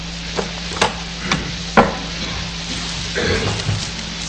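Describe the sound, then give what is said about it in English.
Thin Bible pages being flipped: a few soft papery flicks and crisp rustles come one after another, then a longer brushing shuffle, all faint over a low, steady hum. “Let's flip over to Galatians 5.”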